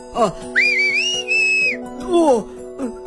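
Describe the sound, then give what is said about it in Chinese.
A person whistles a signal call: one long, clear high note that rises slightly at the start, holds steady for about a second, then cuts off. “哦，我想这没问题，你一吹口哨我就出来好吗？”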